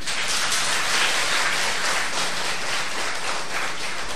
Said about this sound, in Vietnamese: Nãy giờ vỗ tay mấy hiệp rồi mà không biết trong bụng có thấy vui không?